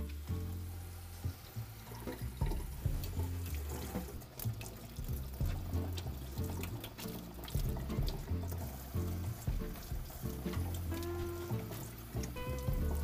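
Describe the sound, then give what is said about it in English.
Leeks washed under running tap water in a sink: a steady, quiet stream of water with small splashes and trickles that shift as the vegetables are moved about, with no talking. “And now we go to the sink and we wash everything.”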